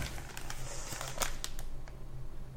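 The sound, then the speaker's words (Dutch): Wrapping paper crinkles and rustles as a gift is unwrapped, producing a faint, irregular stream of crackles and crisp rustles. “Ik ga gewoon mijn cadeautje uitpakken, jongens.”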